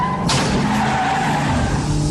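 A car skids during a chase with a loud, sustained tire screech and a roaring engine, holding steady for about two seconds with no voices.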